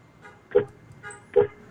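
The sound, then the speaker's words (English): A car horn sounds twice from a slow-accelerating car that can run on biodiesel: two short, fairly faint toots with a quiet pause between them. “okay, I just did a honk. One more. Did you hear the horn blast?”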